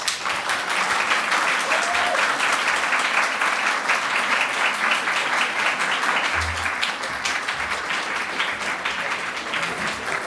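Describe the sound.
An audience at the Literature House in Norway applauds to welcome discussion guests, with dense, steady clapping at an even level that lasts about ten seconds.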